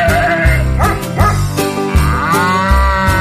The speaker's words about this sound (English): Hello there, farm animals. What do you male animals want for Christmas?